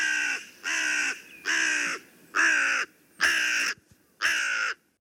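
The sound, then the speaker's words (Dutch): A crow caws six times, each harsh, nasal call lasting about half a second, evenly spaced with short silent gaps between them and no other sounds competing. “Dat was de kraai. Dat was de kraai.”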